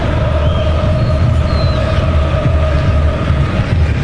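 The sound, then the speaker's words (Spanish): A stadium crowd of Argentine fans chants at a football match against Algeria, a steady, dense roar of massed voices that holds evenly through the whole clip without a break. “Qué lindo se escucha el estadio. Escuchemos ahora el estadio.”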